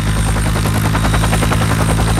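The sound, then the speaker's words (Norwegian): Loud, steady rotor thudding from a high-tech SAR Queen search and rescue helicopter, a continuous pulsing whir with an engine drone beneath, even in level throughout. “skal du til slutt få opp et høyteknologisk SAR-Queen-helikopter fra bakken”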